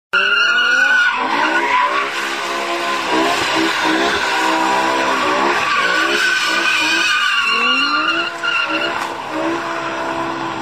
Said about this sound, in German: Klar lässt sich da der ein oder andere Burnout nicht vermeiden.